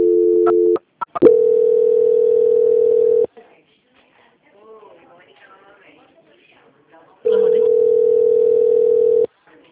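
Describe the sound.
Telephone tones play during a call transfer. A steady mid-pitched tone cuts out for a couple of short beeps, resumes for a longer stretch, gives way to faint voices, then returns as the same continuous tone.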